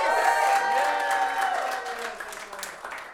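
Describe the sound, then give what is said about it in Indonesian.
An audience applauds and cheers for musician Indra Aziz after the band is introduced. Loud, dense clapping with cheers gradually fades over about three seconds. “Sekali tepuk tangan buat Indra Aziz, please, please, please, please, please.”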